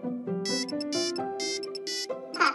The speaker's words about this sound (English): I think that's my phone. Oh, where did I put it?